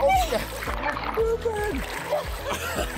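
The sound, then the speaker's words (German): Splashing water from people swimming, with a few bursts of splatter and voices talking over most of it. “Wir schwimmen.”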